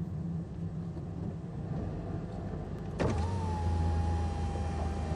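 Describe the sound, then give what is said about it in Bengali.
A car coming to a stop after a long drive on a winding road: a steady low engine rumble, then a sudden sharp click partway through, followed by a louder, even hum with a thin, steady motor whine. “আঁকাবাঁকা পথে আরও ঘন্টা আধেক drive করার পর গাড়ি থামায় driver.”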